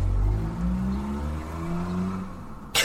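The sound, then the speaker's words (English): Cars passing by outside a parked car give a steady low engine rumble with humming tones that slowly drift and fade, ending in a brief sharp noise. “But we are in a car. Yes, and there are cars going past, looking at us, being like, "What are those two weirdos doing in that car?"”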